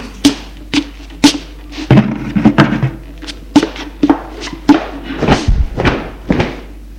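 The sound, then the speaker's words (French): Loud knocking on a partition wall: many heavy, irregular thuds pounding in quick clusters, with a few sharper single blows between them, and no voices. “L'on frappe de grands coups contre la cloison.”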